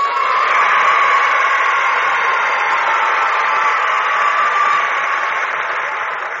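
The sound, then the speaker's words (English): Studio audience applause and cheering in welcome, a dense, steady wash of clapping that holds strongly for several seconds and eases slightly toward the end. “Thank you. Thank you for that nice welcome, audience.”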